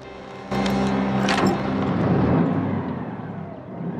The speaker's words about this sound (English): The key dangles in the starter, and Tim turns it. The engine springs into life.